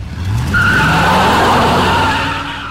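A car pulls away with its tires skidding: a loud, sustained squeal rises over engine noise, holds for about two seconds, then eases off slightly at the end.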